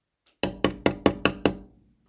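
Six loud knocks on a door, struck in an even, brisk rhythm, each sharp and hollow with a short ring-out, heard alone.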